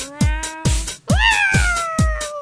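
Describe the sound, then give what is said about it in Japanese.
Cat meowing over a steady, thumping rhythmic beat. There are two meows: a shorter one, then a long drawn-out one that rises sharply at the start and slowly sinks as it fades. “猫。”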